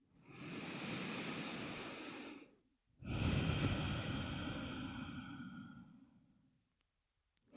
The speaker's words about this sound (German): Und nimm ein paar weitere bewusste Atemzüge ein und aus.